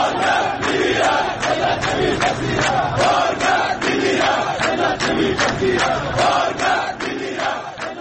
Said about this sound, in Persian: کارگران گروه ملی صنعتی فولاد ایران دست کم 3 روز در اهواز راهپیمایی و در مقابل استانداری خوزستان تجمع کردند.